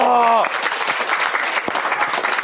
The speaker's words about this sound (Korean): 박수 한번 주세요.